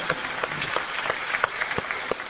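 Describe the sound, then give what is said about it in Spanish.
Applause from an audience at a circus show: a dense, steady crackle of many hands clapping, heard on its own without voices. “¡Un aplauso!”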